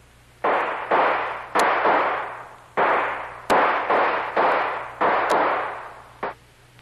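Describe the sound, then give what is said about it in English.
Gunfire near hangars at an airfield: about eight loud, sharp shots, each ringing out and fading, in an irregular sequence, followed by a fainter final one. “One of those bullets blew my hat off.”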